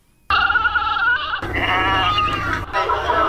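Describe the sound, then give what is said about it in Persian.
Goats and sheep bleat at a livestock market in Kabul's 500 Famili area ahead of Eid al-Adha. Loud, sustained, wavering cries overlap with one another, and a second animal joins midway. “گزارش با صدای مواشی آغاز می شود.”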